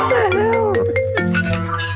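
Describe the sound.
A mobile phone ringtone plays a loud, steady melodic run of bright electronic tones that glide and step in pitch for about two seconds.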